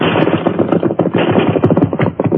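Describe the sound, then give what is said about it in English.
Rifle fire in a Western-style gun battle: a dense, continuous crackle of rapid shots, loud and unbroken throughout, with no voices. “Rifle fire”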